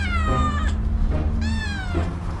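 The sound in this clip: A cat meows twice, each a drawn-out, high, wavering cry separated by a short pause, fairly loud over a low background hum.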